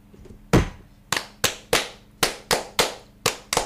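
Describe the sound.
Freemasons give the ritual 'fire' toast with rhythmic group clapping: ten sharp, loud claps, one opening strike and then a quick, even sequence of cracks, each decaying fast into near silence.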